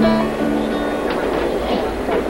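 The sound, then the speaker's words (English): A train runs on rails with a loud, steady rumble and a low droning hum, with a few faint clicks from the wheels over the track. “Can you tell me which way this train's headed?”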